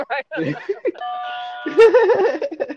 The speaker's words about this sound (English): So I don't know if you heard that doorbell. What was that? Right. That was a doorbell.